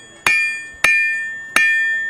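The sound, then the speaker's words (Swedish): A medieval blacksmith at a medieval market in Visby on Gotland strikes metal three times. Each hit is a sharp, bright clang with a long, slowly fading metallic ring, and the strikes come a little under a second apart. “Ja, och det som ni hör nu, det är en medeltida smed, en sån som faktiskt fanns på skeppen.”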